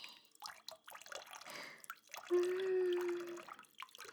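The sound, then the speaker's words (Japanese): Warm water splashes and trickles as fingers rinse soap foam off ears. Quiet drips and soft wet rustles come in scattered bursts, with a longer continuous stream of water near the middle. “お湯も人肌の温度だからストレスなく、しっかり耳に当てつつ指で泡を洗い落として”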